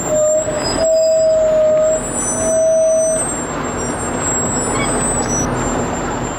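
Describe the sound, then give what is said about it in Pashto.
A military convoy of tanks and armored vehicles drives from Lashkar Gah toward Nahr-e Saraj district in Helmand, with a loud, continuous engine roar and rumble. A thin, high mechanical whine rises above it for the first few seconds. “ضربتي ټانک تورپلن ټیرونه او پسې لسګونه نور زغروال او شوبلې د لشکرګاه څخه د نهر سراج ولسوالۍ په لور ځي”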